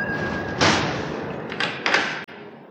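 A window being shut: a few rushing, scraping bursts of movement end in a short, sharp thud as it closes, over a constant background noise.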